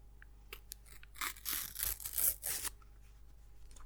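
A paper packet being torn open, heard as a few short crackly rips building into a longer tearing sound, fairly faint and with no talk.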